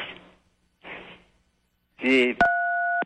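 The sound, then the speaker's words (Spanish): A steady two-pitch telephone tone starts abruptly as a phone call is redialed, holding to the end after a few short bursts of speech. “nos va a tocar volver a repetir la llamada telefónica”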